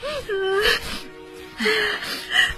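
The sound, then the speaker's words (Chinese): A distraught woman cries, with wavering, high-pitched sobbing wails coming in a few broken bursts separated by brief catches of breath. “好了好了，别哭了”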